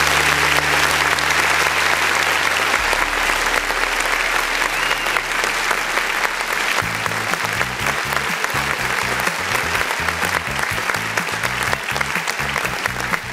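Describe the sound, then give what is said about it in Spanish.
Loud, dense audience applause that runs as an unbroken roar of clapping. Low tones sit underneath and turn into a pulsing beat in the second half. “un tremendo aplauso para ellos.”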